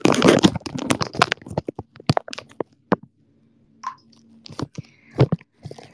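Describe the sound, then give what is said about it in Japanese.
Chewing on store-bought steamed chicken breast from a convenience store: many irregular, wet mouth clicks and squelches, dense and loud at first, then thinning into sparse, fainter bites with short pauses. “買ってきちゃったから食べよう買ってきちゃったから食べるしかない。”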